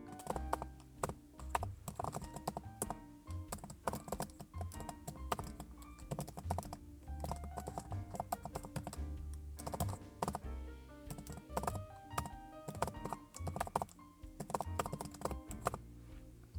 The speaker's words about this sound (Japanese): サーフェイスのキーボード。なんだろう、パソコンね、なんか大きいキーボードもあるんですけど、今回はあえてのこれでございます。